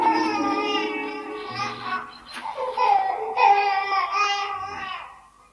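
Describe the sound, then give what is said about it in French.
A baby crying in a prehistoric-era scene, a long, wavering whimpering cry mixed with fussy babbling sounds. It swells and eases in several bursts before fading out at the end. “Viens, petit homme, viens. Ne pleure pas, petit homme.”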